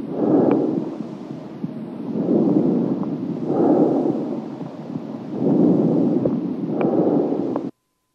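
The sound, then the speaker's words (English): Bronchovesicular breath sounds heard through a stethoscope: soft, low, rushing swells of airflow that rise and fade in a slow, regular cycle of several breaths, with no voices. “Bronchovesicular breath sounds.”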